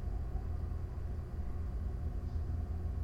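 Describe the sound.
A low, steady rumble fills the interior of a moving car: a constant engine and road drone with no distinct events.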